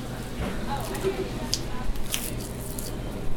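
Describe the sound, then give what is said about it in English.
Wet, squishy cutting as a knife detaches the heel tendon at the shank of a leg of meat, with a few sharp, crisp slicing bursts over a steady low background. “So we're gonna first detach the heel tendon, or the Achilles heel on humans.”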